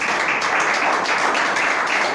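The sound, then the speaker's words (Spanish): A church audience gives a round of applause for a sister before she preaches, with dense, evenly paced clapping that holds steady for the whole stretch. “Uma salva de palmas para a irmã Roberta.”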